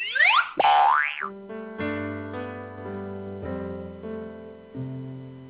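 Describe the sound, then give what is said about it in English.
A cartoon bonus sound effect opens with bouncy boing swoops rising and falling in pitch, then settles into a bright, chiming run of stepped musical tones that rings on to the end. “I'm hard on crime, and I approve this cartoon bonus sound.”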